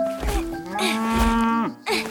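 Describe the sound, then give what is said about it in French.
A cow on a farm in the Vosges lets out a loud, drawn-out, low moo, rich and throaty, its pitch sagging at the end before a short fresh call begins. “Je te la mets où la vache, papa ? Pose-la ici !”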